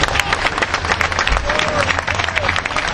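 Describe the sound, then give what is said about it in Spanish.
Applause from the audience at a panel event honoring an activist group: loud, busy clapping with voices mixed into the crowd noise throughout. “Un aplauso fuerte para las compañeras de Pañuelos en Rebeldía.”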